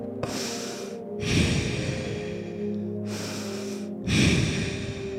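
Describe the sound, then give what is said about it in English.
Deep human breathing: a long breathy inhale, a held pause, then a released exhale, as soft airy rushes separated by brief silences over a faint steady hum. “Right before you go to breathe in, you take a deep breath in and you hold again. And then you let go and you just let be.”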